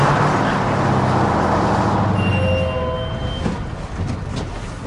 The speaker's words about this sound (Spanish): furgón transita por un camino de tierra entre árboles.